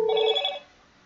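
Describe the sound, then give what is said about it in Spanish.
A telephone rings with an incoming call: one short electronic ring burst of steady bright tones that cuts off after about half a second and leaves near-silence. “Ya, perdón, me volvieron a marcar.”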